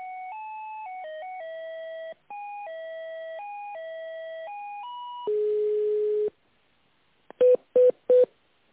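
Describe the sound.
Telephone tones while a call is transferred: a series of stepped electronic tones like a short melody, then a longer buzzy tone, a pause, and three short beeps, all clean and without voices.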